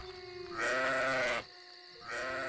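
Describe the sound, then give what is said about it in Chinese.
Sheep bleating on a hillside where shepherds tend their flock: two wavering, nasal bleats separated by a short pause. “In the hills outside Bethlehem. Shepherds looked after their sheep.”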